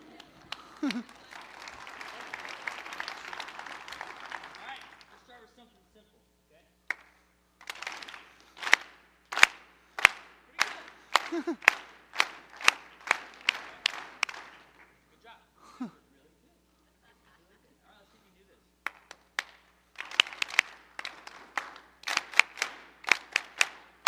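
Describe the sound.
A church audience claps along in rhythm, led by a pastor. Sharp unison claps follow steady patterns in two runs separated by a pause, after an opening stretch of looser applause.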